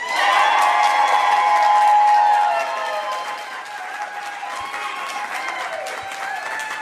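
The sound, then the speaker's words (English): Cheering, clapping and shouting from a lively live audience at Pinstripes making a ruckus on cue, loud and dense at first, then easing to a steadier, somewhat quieter roar of applause and voices. “when I count to three so that they can hear you in WGN Radio land, you all make a big ruckus, okay? We are live at Pinstripes in 1, 2, 3.”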